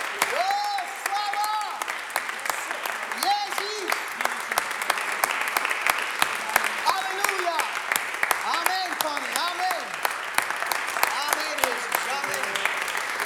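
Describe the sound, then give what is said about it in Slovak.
A church audience applauds the Lord with sustained, dense clapping throughout, loud and even, while voices call out over it. “Dajme veľký aplaus Pánovi.”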